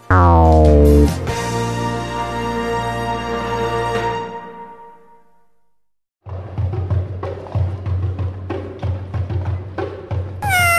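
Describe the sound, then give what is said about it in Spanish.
A cat on a rooftop meows: a loud falling cry drawn out into a long wavering tone that fades to silence, followed by a stretch of busier, uneven sounds. “Un gato caminaba por un tejado maullando.”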